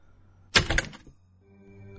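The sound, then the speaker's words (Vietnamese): A room door closes gently with one soft thump that fades within about half a second, leaving near silence before and after. “Cánh cửa phòng khẽ khép lại.”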